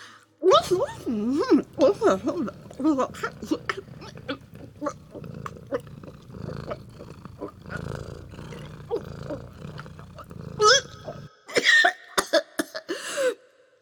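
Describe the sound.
Choking and coughing from a person: strained gagging and voiced throat noises break into a few sharp coughs and spluttering bursts, uneven and intermittent, ending in several louder coughs.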